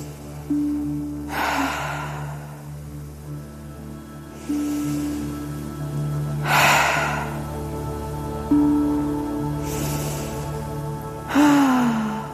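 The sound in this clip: Slow, deep breaths in and out during a guided relaxation exercise: five soft, breathy swells spaced a few seconds apart, rising and fading over a quiet sustained musical drone.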